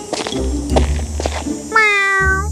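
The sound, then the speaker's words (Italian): A cat gives a single drawn-out meow near the end, clear and tonal. Other sounds and a low hum come before it. “Fingendo di imbattersi per caso nel re che scendeva le scale, il gatto miagolò piano.”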